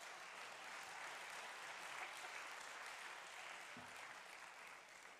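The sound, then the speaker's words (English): Soft, steady applause from a church audience clapping hands, a continuous rustling patter that runs the full length without pauses or voices. “Clap your hands for me.”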